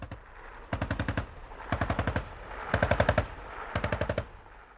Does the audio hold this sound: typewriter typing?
no